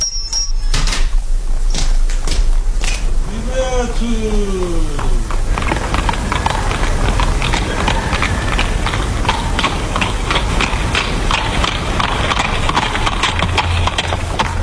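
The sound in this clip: Hooves of a horse-drawn carriage clip-clop steadily throughout, with many quick, even hoof beats over a continuous rumbling background.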